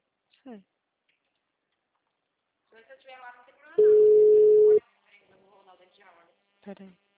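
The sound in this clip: A telephone line tone sounds while a call is being placed: one loud, steady, mid-pitched beep lasting about a second, with faint talk before and after it.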